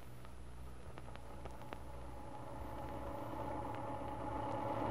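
A car motor runs steadily after a carburetor adjustment, having been wheezy before. It gives a continuous low hum that stays even throughout and grows slightly louder toward the end.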